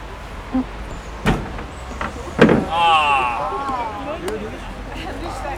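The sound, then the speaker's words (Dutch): A door closing at the reopening of an outdoor path with a wind-telephone artwork gives a few brief knocks and a louder thud midway, with a thin wavering squeal after it and voices in the background. “De deur gaat dicht.”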